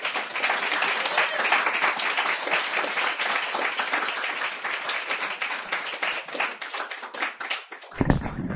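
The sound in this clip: An audience at a poetry reading applauds a reader with dense, continuous clapping from many hands for about eight seconds. The applause then cuts off abruptly with a low thump near the end.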